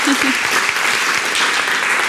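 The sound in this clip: Loud audience applause at an evening event honouring wine queens, a dense, sustained roar of many hands clapping at a steady, even level from start to finish.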